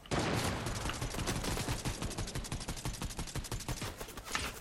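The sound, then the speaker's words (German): Gunfire rattles through a ranked video game match, with many quick shots in a dense, steady stream throughout at a fairly low level. “ich hab Angst zu pieken, weil der hat einen Sniper. Oh, er sniped.”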